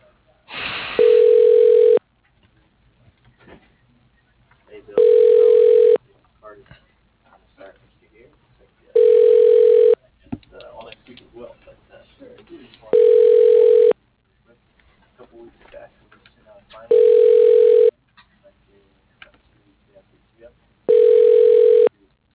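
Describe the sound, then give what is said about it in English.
A telephone ringback tone sounds six times as a call is transferred to voicemail, evenly spaced electronic bursts of equal length and loudness separated by quiet gaps. “Yeah, if you want, I can transfer you over to his voicemail.”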